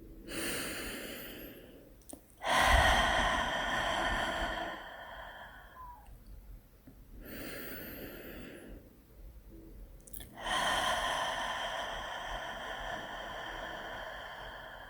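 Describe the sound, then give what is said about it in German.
Deep breaths during a guided relaxation, drawn in through the nose and let out through the open mouth: slow, airy inhales alternate with longer, fuller exhales, about two unhurried cycles with quiet pauses between them and no talking. “nimm ein paar tiefe Atemzüge durch die Nase ein. Und durch den geöffneten Mund wieder aus.”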